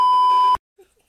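A censor bleep: one loud, steady, mid-pitched pure tone lasting about half a second that cuts off abruptly, followed by a few faint, brief sounds.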